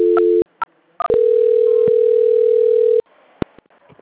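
Telephone tones during a customer call transfer: a steady tone, a couple of short beeps, then a long continuous tone lasting about two seconds, followed by a near-silent line with a brief click.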